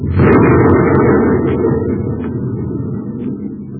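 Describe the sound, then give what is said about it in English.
A fired torpedo explodes in one loud, deep, rumbling blast that hits abruptly and slowly fades over nearly four seconds, with a few faint crackles on top. “Fire the torpedo!”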